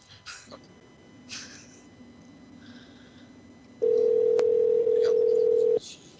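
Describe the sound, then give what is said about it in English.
Outgoing telephone call ringing out: after a little talk, a single steady ringback tone sounds for about two seconds, loud and even, then stops. “I'm calling her back.”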